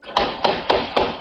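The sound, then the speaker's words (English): Gunshots from a Toronto police officer firing at a stolen vehicle in East York: four sharp, loud bangs at an even pace, each with a brief ringing tail. “That was the sound of a Toronto police officer firing at least five shots at a stolen vehicle that then screeched away from the scene here in East York.”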